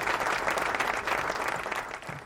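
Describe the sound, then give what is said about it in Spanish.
Applause from a studio audience greeting a film director guest on a Spanish-language talk show: a steady wash of many hands clapping that holds even and then eases slightly near the end. “Los aplausos.”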